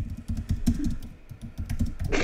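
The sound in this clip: Rapid typing on a computer keyboard makes a dense, steady clatter of many keystrokes that runs without pause, with no voices over it.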